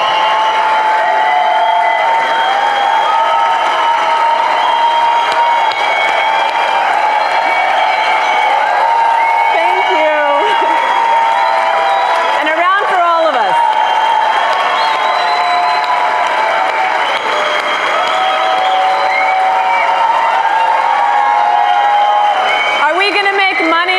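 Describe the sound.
An audience applauds and cheers to welcome a speaker onto the stage at a stock market seminar, a loud, continuous wash of clapping with whoops and shouts throughout.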